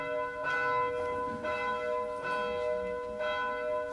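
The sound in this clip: A bell rings with four evenly spaced strikes. Each strike is a bright, resonant tone with long, sustained overtones that fade between strikes.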